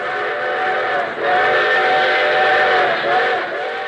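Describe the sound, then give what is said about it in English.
A railroad train sounds a loud, sustained whistle-like tone rich in harmonics. It holds steady for several seconds with a brief dip partway through. “What friendly, familiar sound comes to your mind when you think of the railroads that serve your community? Is it something like this?”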